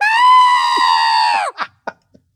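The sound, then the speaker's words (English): A human voice imitates a pet rabbit's scream of pain on the vet's table: a single loud, high, sustained shriek lasting about a second and a half, then a few short, faint breathy sounds. “Yeah, that scream was the last scream of pain from the rabbit.”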